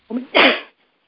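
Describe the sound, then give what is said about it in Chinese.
A single cough bursts out alone. It comes as a short, loud rasp in two quick parts: a brief onset and then a stronger, breathy expulsion that stops abruptly. “对不起我有点咳嗽”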